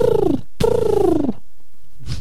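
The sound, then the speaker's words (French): A human voice imitates a pigeon cooing with two drawn-out, throaty coos that each slide downward in pitch, separated by a short break. A faint, brief breathy sound follows. “Ça va, ça fait pas trop pigeon. Ben, ça fait pigeon quand même.”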